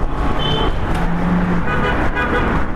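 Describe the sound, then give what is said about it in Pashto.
Cars pass along the Kabul–Kandahar highway beside a village with a small bazaar, making a steady, loud traffic roar throughout with a brief horn-like toot early on. “دغه کلی خلک پکې د اړتیا وړ توکي اخلي او د لویې لارې موټران هم تیریږي.”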